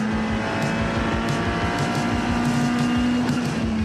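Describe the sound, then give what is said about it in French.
Racing car engine in a video game, heard while overtaking an Audi GT4: a loud, sustained, droning roar that holds steady throughout with no voices. “regardez ça, à quelle vitesse je double l'Audi GT4. Je l'ai laissé sur place. Génial à conduire.”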